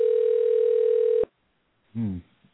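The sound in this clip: Telephone dial tone as a call is placed: a loud, steady humming tone for just over a second that cuts off abruptly, followed by a pause and a brief voice.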